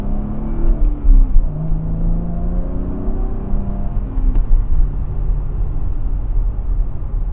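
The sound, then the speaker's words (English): Car engine accelerating after a shift into second gear, a steady low rumble with a faint rising whine and a few louder surges, heard without talk. “Can I pass this guy? Gears, please. Second gear.”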